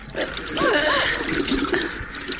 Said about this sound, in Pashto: اوس د مخ ته اوبه واچوه